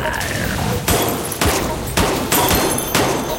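Rapid gunfire from survivors shooting zombies in a mobile video game: several sharp bursts of shots cut through a continuous, noisy game soundscape at a fast, uneven rhythm.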